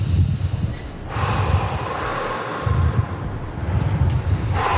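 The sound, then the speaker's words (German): Deep breathing in and out, repeated a few times by someone standing at the edge of a sheer drop after a railing was removed. Heavy, rough breaths mix with steady wind noise on the microphone. “Am besten mehrfach jetzt tief ein- und ausatmen.”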